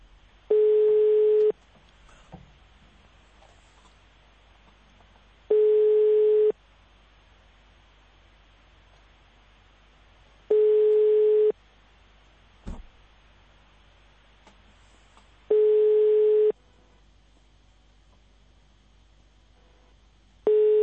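Telephone ringback tone of a call ringing before it reaches voicemail. Steady single-pitch tones about a second long repeat every five seconds, with four full rings and the start of a fifth, and faint low background noise between them.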